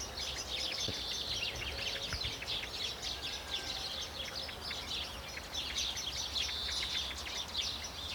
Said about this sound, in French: C'est un cri d'alarme, une merle.